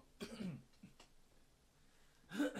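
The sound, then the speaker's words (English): Throat clearing and short coughs from a throat irritated by wildfire smoke in California. A rough burst comes at the start, then a couple of small catches, and a louder burst near the end. “All the smoke in California is making, like, irritating my throat and stuff”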